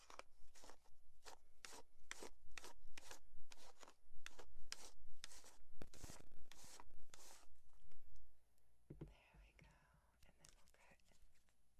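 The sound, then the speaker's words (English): Hair being combed during a haircut gives soft, raspy brushing strokes, many of them repeated in a steady rhythm, before they give way to quieter, scattered rustling. “Let's give you a haircut. Pull. Let's comb your hair.”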